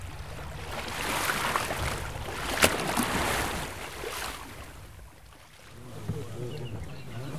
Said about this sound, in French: On navigue sur le Rhône, le Grand Rhône ce coup-ci